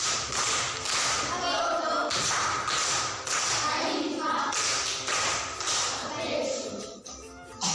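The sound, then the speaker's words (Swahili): Studio audience applause for a contestant on a Swahili quiz show: dense, sustained clapping that runs the whole length at steady loudness, with some speech mixed in underneath. “Makofi kwa shangazi.”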